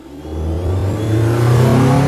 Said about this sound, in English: A car throbbing with music and testosterone, fast and slow-mo at the same time, a retrograde pull of sound, vision and air.